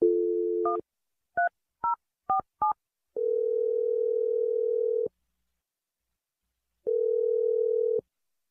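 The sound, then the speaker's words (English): A telephone number being dialed: a steady dial tone breaks off into five quick touch-tone key beeps, followed by two long ringing tones separated by a pause. “Okay, so I'm going to dial the number right now.”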